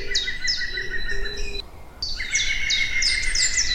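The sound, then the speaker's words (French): A green woodpecker gives its laughing call: a rapid run of shrill repeated notes, a short break, then a second run of the same ringing notes. “Alors, vous avez entendu ce rire ? Ce rire moqueur ? Ce ricanement ? Ce ricanement, eh bien, c'est le pivert.”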